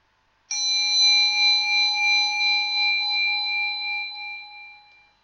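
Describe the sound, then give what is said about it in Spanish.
A meditation bell is struck once and rings a clear, bright tone that holds and slowly fades over several seconds with a gentle wavering shimmer. No one speaks over it. “Ahora va a volver a sonar una campanilla de meditación y de nuevo debéis seguir su sonido hasta el final.”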